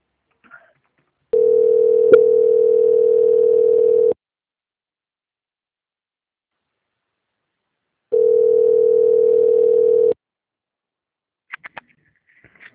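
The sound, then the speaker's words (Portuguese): Telephone line tones sound while a call is transferred to another department: two long, steady mid-pitched tones of about three seconds each, separated by several seconds of silence, with a few faint clicks at the end. “peço que aguarde um minuto em linha que eu vou transferir o contato para o controle de qualidade”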